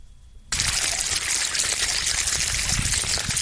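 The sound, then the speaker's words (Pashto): Water rushes from a small pipe to irrigate field plots of millet and okra. After a brief quiet opening, the flow starts abruptly and continues as a steady, loud, hissing gush with no change. “اجم خان له کور د اوبو وړوکې پیپ راوستې او خوا کې د دنیا باجرې او د بینډو درې کیارې اوبه کولې”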